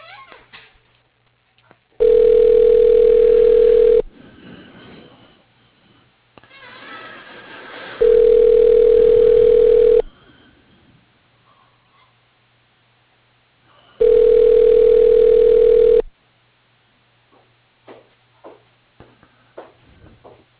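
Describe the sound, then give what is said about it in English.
Telephone ringing as a call is transferred: three loud, steady mid-pitched ring tones, each about two seconds long, spaced several seconds apart, with faint line noise between them. “Let me go ahead and put you through to Dan's line. One moment.”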